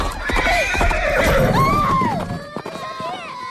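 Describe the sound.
Horses neigh loudly as riders mount up in a hurried, chaotic scene. Long wavering whinnies rise and fall over clip-clopping hooves and shouting voices, and the sound thins out toward the end.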